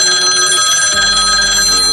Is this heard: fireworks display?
no